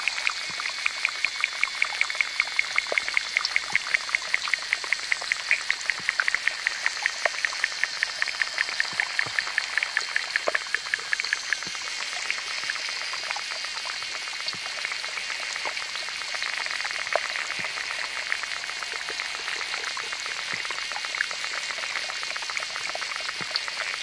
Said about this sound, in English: Now let's take a dip into underwater melodies of small ponds. Engineer David Dunn dropped some hydrophones into a pond in Africa and another in New Mexico and put the sounds together.